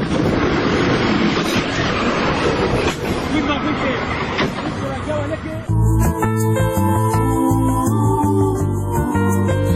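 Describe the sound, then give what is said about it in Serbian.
A train on its regular line, rounding a bend beside fields with no horn sounded, produces a loud, dense rumbling roar that holds steady for about six seconds before cutting off abruptly into a different, more tonal sound. “Iza prve krivine ukazao se voz koji saobraća na svojoj redovnoj liniji.”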